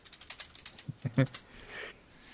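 Typing a message on a computer keyboard: a quick, uneven burst of light clicking keystrokes that stops partway through.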